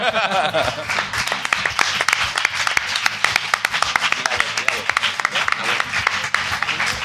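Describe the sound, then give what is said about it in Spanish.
Audience clapping and applause for two guests at a live show: dense, steady clapping that runs throughout, with some voices mixed in. “y ahora vamos a aplaudir a estos dos muchachos”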